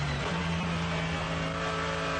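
Racing car engines accelerating out of a corner on a circuit, with traffic bunched up behind a slower class car in a multi-class race. A steady, droning engine roar with a sustained low tone holds at constant loudness, without voices.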